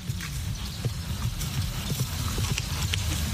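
Horse hooves clip-clop at a steady, even rhythm during horseback riding, the light knocks sitting over a continuous low rumble of background noise.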